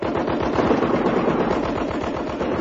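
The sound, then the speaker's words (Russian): Machine guns firing in battle as sailors advance over snow: a loud, dense, continuous rattle of rapid rounds in a steady driving rhythm, unbroken for under three seconds, with no voices. “Пулеметы к бою! Матросы! Огонь! Огонь!”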